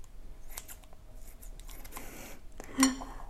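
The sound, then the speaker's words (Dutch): Scissors snip salmon into smaller pieces, a few light metallic cuts with a sharper clink near the end, faint and without talk. “Ik ga nu de zalm wat kleiner maken.”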